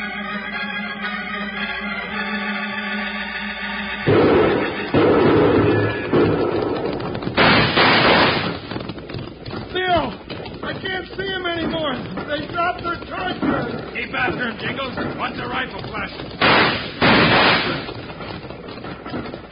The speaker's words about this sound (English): Now they've stopped shooting.